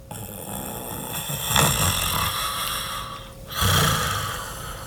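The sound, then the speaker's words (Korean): An old man snores after going to bed, giving two loud, rasping snores spaced about two seconds apart over a faint steady background hiss. “잠시 뒤 코를 고는 소리가 들려왔다.”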